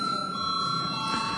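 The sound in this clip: An electric bell rings in a parliamentary chamber to call members to a vote, a steady, continuous metallic ring with bright sustained tones, heard alone.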